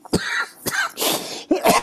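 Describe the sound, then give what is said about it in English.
A few harsh, raspy coughing bursts from a person choking come in quick succession, separated by brief gasping pauses and rough throat-clearing sounds. “I'm probably making him choke more by saying that. Seriously. Excuse me, everyone.”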